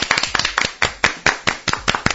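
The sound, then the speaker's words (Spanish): Applause for a surgeon from a Valencia hospital: a run of many sharp, distinct hand claps in a brisk, slightly uneven rhythm, fairly loud and standing alone without talk. “Un aplauso para Pedro Cavadas.”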